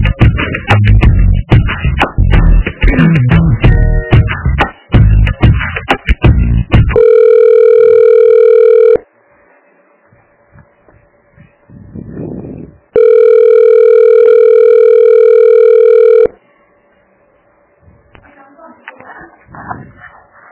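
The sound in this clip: Telephone line tones sound while a call is transferred to another extension. After a dense stretch of sound come two long, steady, loud tones, separated by a quieter gap with faint scattered noises.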